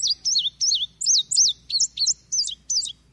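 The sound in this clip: An indigo bunting calls in many high, clear, bright notes given mostly in pairs, repeated quickly and loud against a quiet background.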